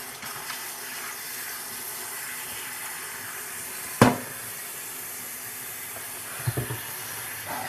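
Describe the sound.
Water runs from a kitchen tap during washing up after preparing a dish for the oven, a steady hiss broken by one sharp knock midway and a few small clatters near the end.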